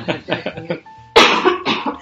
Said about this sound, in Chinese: 马上咳嗽给大家听。